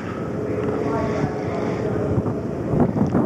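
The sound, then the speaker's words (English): A boat drifts toward the dock at Bridgeport with a steady, low, rumbling wash and wind noise buffeting the microphone. A few louder bumps come near the end. “drifting now toward Bridgeport. Here we are docking in Bridgeport.”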